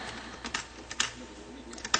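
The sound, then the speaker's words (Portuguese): Tab key tapped repeatedly on a computer keyboard to close a small window: a few faint, sharp clicks at irregular spacing, with no talk. “Vou dar Tab até fechar.”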